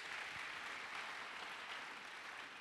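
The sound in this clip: Congregation applauding during a Sunday church service, a faint, even wash of clapping that holds steady throughout without a clear start or end.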